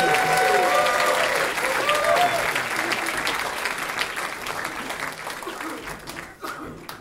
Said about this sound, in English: And how about a hand for Mark Kaufman